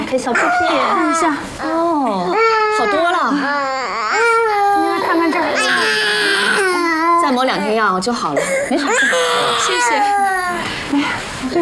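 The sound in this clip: A baby cries with loud, continuous wailing that keeps rising and falling in pitch over the whole stretch. The infant has a sore bottom that is being treated with ointment.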